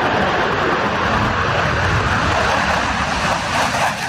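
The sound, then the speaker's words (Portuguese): Swedish-made F-39 fighter jet taking off from Anápolis air base in Goiás, a loud, steady engine roar that holds with little change for the whole stretch. “Assim que o alerta é emitido, o F-39 decola em poucos minutos da base aérea de Anápolis, em Goiás, cidade a cerca de 150 quilômetros de Brasília.”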